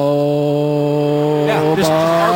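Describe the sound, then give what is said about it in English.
A Honda race car engine holds steady high revs as it rolls through a hairpin corner, producing a constant, buzzing harmonic drone. A brief rougher flutter comes near the end. “He can roll a corner and not lose any of those RPMs. It's just as soon as he gets back into the throttle, that engine, that Honda responds immediately.”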